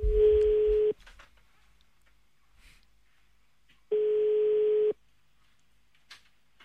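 Ringback tone of an outgoing call to a tattoo artist in Ostend: two steady mid-pitched rings about a second each, separated by roughly three seconds of near silence.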